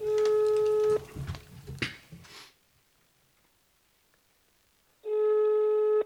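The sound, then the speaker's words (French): A telephone tone opening a song: a steady electronic phone tone sounds for about a second, then scattered faint noises and a quiet stretch follow, before the same steady tone returns near the end. “Parce qu'il y a un petit appel téléphonique au début de la chanson.”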